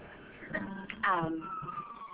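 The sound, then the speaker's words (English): Fire truck siren going by: a faint, sustained wavering tone heard under a person talking. “Sorry, there are sirens in the background. There's a fire truck going by.”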